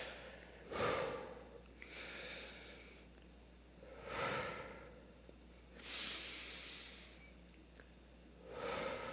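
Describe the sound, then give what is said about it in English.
Deep breaths drawn in and let out slowly, a few airy, rushing swells that rise and fade at a steady, unhurried pace, with no talking. “We'll do these together. Take deep breaths one to three times.”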